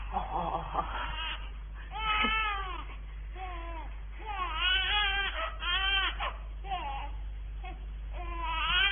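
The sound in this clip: A newborn baby cries just after birth in a sequence of repeated, wavering wails with short breaks between them. The cries are fairly quiet, with a low steady hum underneath.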